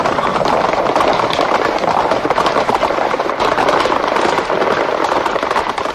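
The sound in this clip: A horse galloping away, a loud, dense and continuous drumming of hoofbeats that stays steady throughout.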